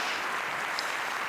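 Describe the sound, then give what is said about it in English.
Dense, steady applause from an audience welcoming the first guest to an on-stage couch, a continuous wash of clapping at even loudness throughout with no talk over it. “A round of applause, please.”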